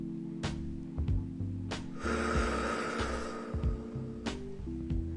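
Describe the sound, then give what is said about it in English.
A single deep inhale during a relaxation breathing exercise, a soft airy draw of breath lasting about a second, set over steady low background music that carries on through the held breath. “Let's take a deep breath. Inhale. Hold it.”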